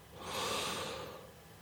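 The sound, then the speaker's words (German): A single deep breath taken during a guided self-embrace exercise: a soft, airy rush that swells and then fades over about a second, heard alone without talk. “Und dann nimm mal einen ganz tiefen Atemzug.”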